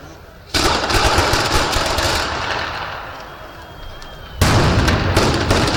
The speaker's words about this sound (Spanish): Es el sonido de la traca en la fiesta de la Bajada de Jesús.